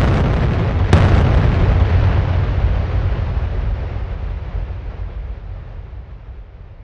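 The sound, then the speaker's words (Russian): Explosions of two towers detonated by remote at almost the same moment: a sudden loud blast swells into a deep, heavy rumble that slowly fades over several seconds. “Даже внутри проходца я услышал два прозвучавших практически синхронно взрыва.”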